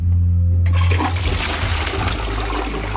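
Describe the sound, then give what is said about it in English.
A toilet flushing in a public baths, triggered by washing hands at a sink built onto the back of the cistern: a loud, steady rush of water starts after a short low hum and keeps pouring throughout. “The sink is on the back of the cistern, so when you wash your hands, it flushes the toilet, rather than you actually flushing the toilet.”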